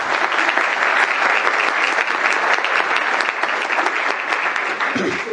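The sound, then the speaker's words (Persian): Audience applause, a loud, steady wash of dense clapping that continues without a break from start to finish. “یه دست بزنیم برای من.”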